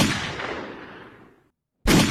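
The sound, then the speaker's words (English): Gunshots ring out as loud, sharp bursts, each followed by a long decaying tail. A fresh blast cuts in abruptly after a short gap of silence. “Three shots.”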